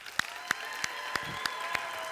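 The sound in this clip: A church audience claps to welcome a speaker, six sharp, evenly spaced claps landing in unison over a steady background wash.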